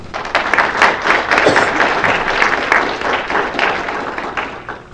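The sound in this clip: Audience applause welcoming a guest speaker to a lecture. Many hands clap in a dense, steady wash, fairly loud, easing slightly toward the end.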